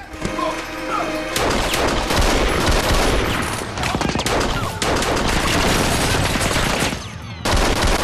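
Rapid pistol gunfire in a cellar, a dense and loud barrage of sharp cracks mixed with crashing impacts. The barrage continues almost without pause, broken by two brief lulls.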